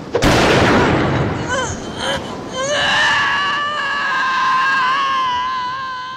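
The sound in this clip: A single sharp gunshot bang goes off as a man fires a pistol. It is followed at once by a loud, drawn-out, wavering cry of pain.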